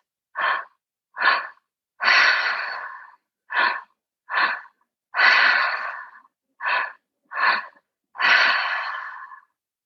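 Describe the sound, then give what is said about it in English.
Deep breathing during a guided breathwork session: three rounds of breaths, each with two short, sharp breaths followed by one longer, drawn-out breath. The breaths are clear and fairly loud with no talking. “Just taking a couple of more rounds of that breath.”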